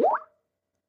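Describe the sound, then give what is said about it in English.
Skype incoming message notification: a single short, bubbly pop-like tone that sweeps briefly upward in pitch and fades within a fraction of a second, heard alone. “That sound you hear is people sending me messages on Skype”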